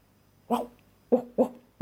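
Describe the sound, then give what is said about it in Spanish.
A dog in a children's story gives four short, high yipping barks: one alone, then after a pause three more in quicker succession, the last cut off. “justo debajo de un árbol se encontraron con un perro”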